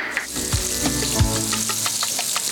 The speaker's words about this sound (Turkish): Tereyağımız yumuşamaya başlayınca soğan atacağız.